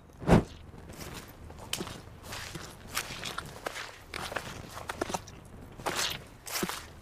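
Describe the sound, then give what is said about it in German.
Footsteps of a small group descending a slippery stairway, many irregular, fairly soft steps and scuffs following one another in an uneven rhythm. “Sie stiegen die Treppe hinab.”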